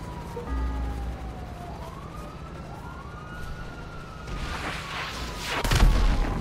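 A police siren in a video game street gun battle wails in rising and falling sweeps, fairly faint over a low rumble. A sharp, loud burst lands near the end.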